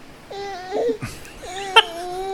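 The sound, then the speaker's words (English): A small dog whines in a few high, nasal, wavering whimpers, broken by a short, rougher yelp-like burst in the middle. “Okay, to be fair, I can't really hear. Yeah, I got this little jerk whining in my ear all the put time. Put him in his crate.”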